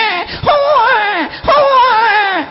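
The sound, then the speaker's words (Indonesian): A voice imitates a newborn baby's cry during an Islamic sermon: two drawn-out, wavering wails, each bending up and then sliding down in pitch, separated by a brief gap. “Suarane napa niku, Bu? Bayi jare.”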